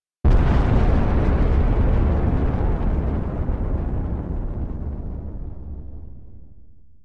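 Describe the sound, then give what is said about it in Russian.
A massive explosion as a world covered in burning cracks bursts apart: one sudden, loud boom that swells into a long, roaring rumble and fades slowly over several seconds. “А после — взрыв.”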